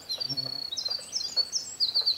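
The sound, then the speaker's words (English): A winter wren, a tiny woodland bird, singing a rapid, high-pitched string of bright trills and twitters, with brief pauses between runs. “And winter wrens are, about 4 inches, very small birds. Winter wrens are the wren of the woods.”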